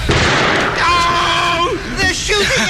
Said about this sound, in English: I smell smoke. It's from the cherry bombs.